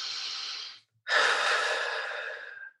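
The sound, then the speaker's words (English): One deep human breath: a steady inhale, a brief silent pause, then a longer, slightly louder exhale that fades out, heard alone. “Now take a deep breath.”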